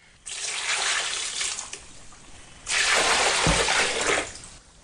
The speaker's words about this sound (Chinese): 树苗要栽直，采实了。浇水，浇水。